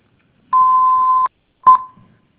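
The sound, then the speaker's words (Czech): Telephone keypad tone from pressing the hash key on an automated line: one steady electronic tone under a second long, then after a pause a second very short tone at the same pitch that trails off. “Nahrajte vaši zprávu a stiskněte křížek, nebo stiskněte křížek a vyčkejte na spojení s operátorem.”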